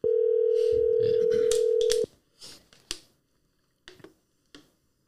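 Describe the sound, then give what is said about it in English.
A telephone dialing a call: a steady, loud dial tone holds for about two seconds, then cuts off, followed by a few short, sharp taps and clicks spaced apart. “Look, I'm going to call Pete right now.”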